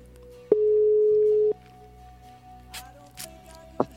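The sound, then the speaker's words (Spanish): A telephone line rings while a call is being placed: one steady, mid-pitched ringback tone lasts about a second, then gives way to quiet line hiss and a few faint clicks. “Ya está marcando. Ya está sonando, a ver.”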